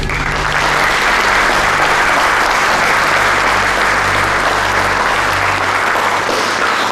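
Applause fills a conference hall in dense, steady clapping that holds at an even, loud level for the whole seven seconds, with no voices over it.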